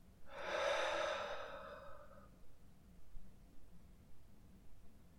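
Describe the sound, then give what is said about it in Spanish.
A deep diaphragmatic breath during a guided breathing exercise, one long, loud, airy rush lasting about two seconds, followed by faint, soft breath noises and near quiet. “Y comienza tomando tres respiraciones diafragmáticas profundas, inhalando a través de la nariz y exhalando por la boca.”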